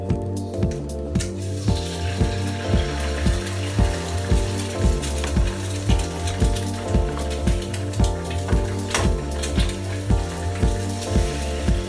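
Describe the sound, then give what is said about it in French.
Eggs fry in a pan with a steady, continuous crackling sizzle that runs unbroken from start to finish, with no talking. “Les œufs sont en train de cuire et j'essaie de tout bien faire.”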